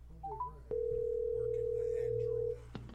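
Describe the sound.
A steady telephone dial tone hums for about two seconds while someone calls people back. Brief talk comes before it, and a click ends it.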